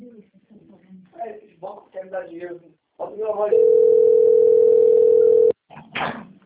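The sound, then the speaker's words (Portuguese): A ringback tone plays on an outgoing telephone call as one steady, low, continuous tone about two seconds long. People talk before and after it. “Tá chamando.”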